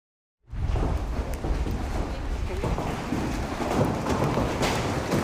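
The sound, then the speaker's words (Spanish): Heavy downpour of an intense thunderstorm with large hail in Asunción, Paraguay: a dense, continuous roar that starts abruptly and stays loud throughout, with wind buffeting the microphone. “Y una intensa tormenta acompañada de granizo de gran tamaño sorprendió a los habitantes de Asunción, Paraguay.”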